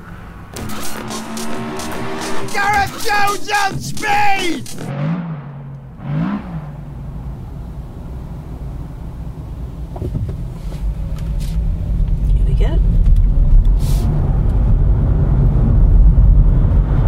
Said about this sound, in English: Silently from 0 to 30 in an electric Hyundai Ioniq